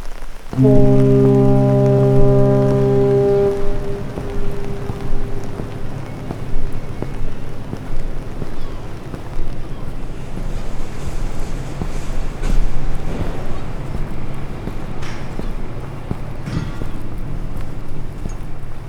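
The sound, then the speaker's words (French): Sea and harbour ambience in Marseille: a steady wash of water noise runs throughout, with a low, horn-like chord of sustained tones sounding over the first few seconds. “Devant moi, il y a la mer. Je regarde mes pieds. On va partir bientôt.”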